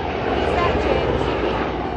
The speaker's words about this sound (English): It is near as the constant drone of helicopters overhead, some ferrying generals and aides around town, others just patrolling.